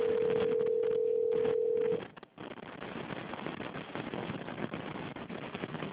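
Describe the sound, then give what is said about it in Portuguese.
A steady single telephone tone holds for about two seconds while a call is transferred to a customer-service attendant, then cuts off into a noisy, hissing phone line. “Por favor, aguarde. Estamos transferindo sua ligação para um de nossos atendentes.”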